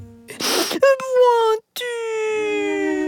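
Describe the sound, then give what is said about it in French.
A cartoon character crying: a breathy, sobbing gasp, then two drawn-out wailing cries, the first sagging slightly in pitch and the second long and steady, separated by a brief silence. “Arrête de pleurer. Ne sois pas triste.”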